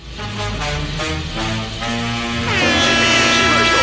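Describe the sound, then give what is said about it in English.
A loud, deep foghorn blast altered in pitch, held steady throughout with rich, buzzing harmonics; partway through, higher wavering tones join the sustained roar. “Wait, how did the foghorn change frequency?”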